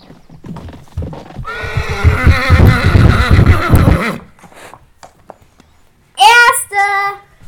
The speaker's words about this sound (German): Sie stehen an der Startlinie und los geht das Wettreiten.